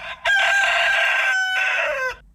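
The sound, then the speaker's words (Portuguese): A rooster crows once in a farmyard with hens. The long, loud, strained cock-a-doodle-doo holds nearly two seconds and sags in pitch at the end before cutting off. “Eu tô cantando afinado ainda até, né? Oh, tá firme o galinho ali.”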